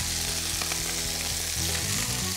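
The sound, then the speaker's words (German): Food fries slowly in a pan over low heat, giving a steady, even sizzle that runs unbroken through the whole short stretch with no talking. “Die werden wie ganz langsam frittiert. Darf man von der Hitze nicht zu hoch machen.”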